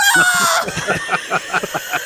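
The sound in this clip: A man imitating a crow's call, voicing a rapid run of many short, rather high caws in an even rhythm, with a brief burst of other voice sound at the start.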